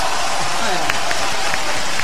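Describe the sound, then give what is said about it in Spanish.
A TV audience gives a loud, dense burst of applause to welcome a guest, a continuous wash of clapping for about two seconds. “Hola, aplausos, vamos a buscar aplausos. Para, si la hacemos bien, ahí va.”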